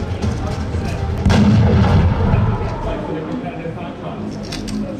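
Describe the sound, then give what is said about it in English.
A sniper rifle headshot in a video game lands as one sharp, loud crack with a booming tail, set against continuous rough game background noise. “It doesn't matter for our sniper. The G-mod is called Muscle Fiber Density. And now that she's in position, she can take a headshot.”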